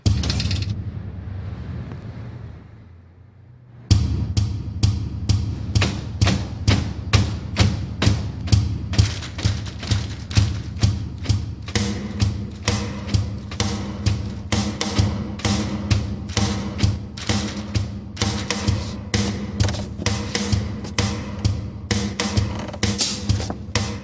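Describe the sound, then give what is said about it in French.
A foot stepping on a metal plate sets a window rattling and clattering. After a quieter opening, many evenly spaced thuds and knocks repeat steadily in a brisk rhythm over a low hum. “je pose le pied à côté, sur une plaque métallique. Et ça fait claquer une fenêtre.”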